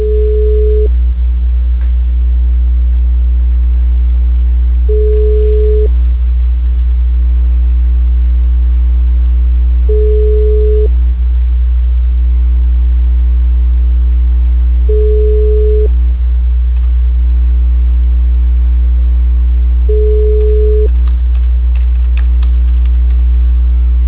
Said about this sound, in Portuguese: Eu vou colocar aqui na chamada de espera que eu vou tentar ligar pra ela, tá?